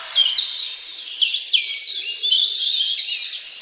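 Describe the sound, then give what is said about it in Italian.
Birdsong: a continuous, high-pitched flutter of rapid chirps and warbling trills, fairly loud and heard alone. “Laggiù ci sono anche uccelli che cantano! Ascoltate!”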